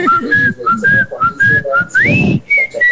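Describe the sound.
A person whistling a melody in short, clear, fairly loud phrases, with a quick upward slide near the end.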